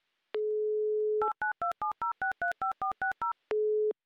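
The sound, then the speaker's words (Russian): A telephone number is dialed: a steady dial tone gives way to a quick run of about a dozen short touch-tone beeps at varying pitches, then the steady tone returns, all clear and alone. “Позвоним Любови и спросим, слушала ли она Юмор ФМ.”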